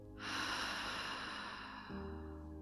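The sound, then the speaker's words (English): Slow, deep breathing during a guided relaxation: one long, airy inhale followed by a softer exhale, over quiet steady background tones. “Inhale. Exhale.”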